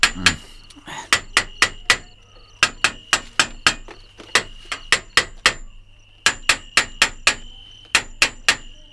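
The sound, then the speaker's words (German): Hammer striking metal cage bars: many sharp, ringing metallic clangs come in quick bursts of several strikes, each with a bright, loud attack and short decay, separated by brief pauses. “was wollen Sie denn mit dem Hammer? Den Käfig kontrollieren. Ich will wissen, ob die anderen Stäbe in Ordnung sind”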